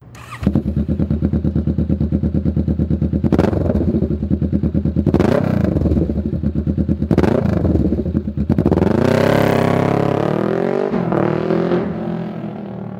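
Motorcycle fitted with a TBR carbon fiber exhaust and muffler system, loud and throaty, idling steadily with a few short throttle blips before a long rising rev that peaks and then falls back toward idle.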